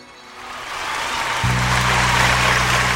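An audience at a Punjabi gathering claps, the applause swelling from soft to loud, and partway through a low, sustained musical drone enters beneath it.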